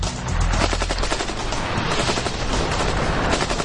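AK-47 rifle firing on full automatic at about 600 rounds per minute: a loud, unbroken stream of rapid cracking shots that holds steady throughout.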